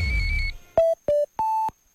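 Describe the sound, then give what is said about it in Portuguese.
A radio hourly time signal sounds as three clean electronic beeps: two short ones at the same pitch, then a longer, slightly higher final tone, alone and clear. “16 horas. Slag Boutique informou a hora certa.”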